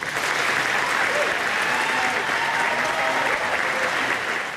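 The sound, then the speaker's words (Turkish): Sustained applause follows UK Prime Minister Keir Starmer's resignation speech. Many hands clap in a continuous, even roar that stays moderately loud and steady throughout. “İstifasını açıklarken gözyaşlarını tutamadı, dakikalarca alkışlandı.”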